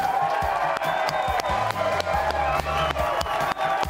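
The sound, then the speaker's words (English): A packed studio audience at a live college basketball talk show cheers and claps, a loud, continuous roar of applause with scattered whoops and shouts throughout. “The folks are fired up. Yeah, I got a packed house in here tonight.”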